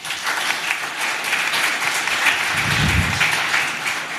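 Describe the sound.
An audience at a bookselling event applauds to welcome a speaker, producing a steady, full roar of clapping that stays loud and even for the whole few seconds.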